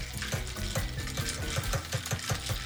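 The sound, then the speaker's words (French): A small spoon stirring an iced ginger beer cocktail: a quick, regular run of clinking and swishing strokes that continues steadily at moderate loudness throughout. “Et là, on prend la petite cuillère pour mélanger un petit peu. On touille.”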